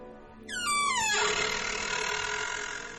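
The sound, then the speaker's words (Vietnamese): A dry, unoiled gate hinge creaks as a gate swings open, a shrill, harmonic-rich squeal that slides downward in pitch over about a second, then gives way to a steady rushing noise that slowly fades. “Cổng vừa mở, cái bản lề khô dầu kêu lên ken két đến ghê cả răng.”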